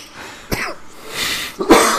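Two short, dry coughs from a throat parched by a heater, sharp bursts separated by a brief pause, with no talking.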